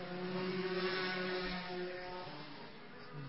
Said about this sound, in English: As the leader, Michael Hazelton in that CIG car comes across the start finish line.